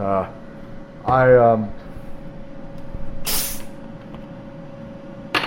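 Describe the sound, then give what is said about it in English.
A brief fizzy hiss from a 1-liter bottle of homemade cola carbonated in a soda maker, heard once over a steady background hum, with voice-like sounds earlier. “you can tell that fizz is still there, and when I pour, well, listen, I don't know if the fizz”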